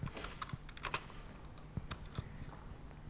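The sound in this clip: Keys pressed on a computer keyboard while coding, including the tab key: faint, scattered plastic clicks at an uneven pace, with a few slightly louder taps and no voices.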